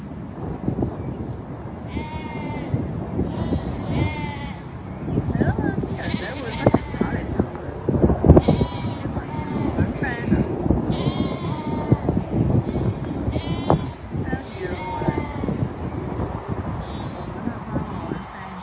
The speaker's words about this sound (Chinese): 咁你見到咧嗰啲羊咧都好和諧嚇，冇爭要嘢食。